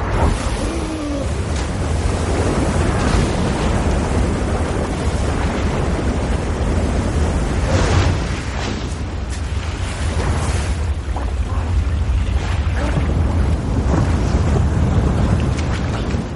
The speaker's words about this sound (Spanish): Cae por la cascada de unos 10 metros y sigue río abajo entre rápidos y grandes desniveles.